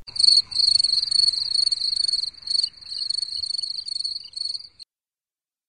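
Crickets chirp in rapid, pulsing high-pitched trills, loud and continuous in short bursts with brief gaps for about five seconds, then fall silent.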